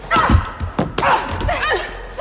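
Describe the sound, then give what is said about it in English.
Punches and kicks land in a brutal fight inside a training ring, heard as a few dull, heavy thuds and sharp impacts over a dense, busy background. “Molly punches Christina down and kicks her.”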